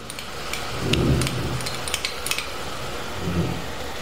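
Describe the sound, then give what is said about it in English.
Beef sizzles in a hot pan as chopped garlic is added, a steady hiss that swells briefly with a few light clinks of metal. “Now while our beef is cooking, we're going to first add in 3 or 4 chopped cloves of garlic.”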